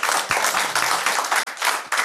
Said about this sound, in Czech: Pokud s tím souhlasíte, tak zatleskejte.